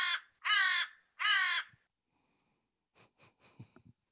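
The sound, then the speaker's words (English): Crow cawing: two loud, harsh, drawn-out caws, then a run of several shorter, fainter calls after a pause. No voices. “Well, that's a crow. That's not a hawk.”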